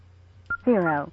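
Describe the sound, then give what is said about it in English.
An amateur radio keypad beeps as a memory channel number is entered: one short high beep, then a longer, lower buzzy tone from the radio. “when you hit the third digit of the memory number, you'll get a longer beep.”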